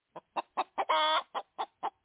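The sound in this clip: A hen clucks alone in short, evenly spaced clucks, four of them, then one long drawn-out squawk, then four more clucks.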